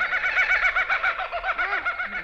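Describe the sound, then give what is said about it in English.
Rapid clucking of a chicken on a farm: a steady run of short, pulsing clucks at a middling pitch, fairly loud and continuous, with no talk over it. “Chicken. Nice chicken.”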